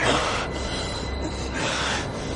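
A subway train bears down in a film scene set on the tracks: a dense, steady roar of rolling wheels and rail noise, loud and continuous with slight swells, no voices over it.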